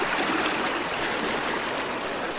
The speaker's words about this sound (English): Looking back at our little cabin on the prairie and ice on the edge of the creek here.